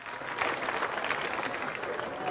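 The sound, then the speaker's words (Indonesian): A group applauding on command at a cultural event with greetings and pantun recitation, steady, fairly faint massed clapping that swells a little early on and then holds even. “Tepuk tangan. Keras.”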